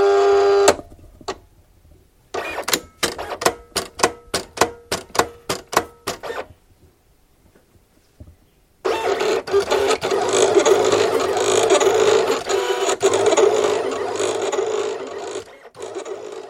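A machine cuts 30 cm cement tiles: many sharp mechanical clicks in a fast run, then a pause, then a loud, steady, rasping whir that holds to the end.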